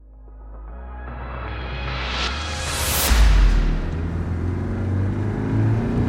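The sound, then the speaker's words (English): A big rig truck loaded with logs accelerates, its deep engine rumble building steadily to a loud peak and then holding a heavy, continuous roar. “Lon Walker presses down the gas pedal of his big rig. The logs loaded in the back shift and groan as the vehicle picks up speed.”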